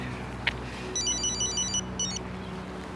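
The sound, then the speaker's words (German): A phone rings with a quick, bright electronic trill in two short bursts, faint against a low steady background hum. “Sie hätten ruhig rangehen können. Ach, das wäre zu kompliziert gerade, glauben Sie mir. Dann gehen Sie schon ran.”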